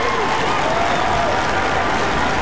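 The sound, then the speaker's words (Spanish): Applause with a crowd, a dense, even wash of clapping that holds steady at a constant level from start to end, with no single claps standing out. “Este aplauso es para ti, disfrútalo por ser el primer lugar.”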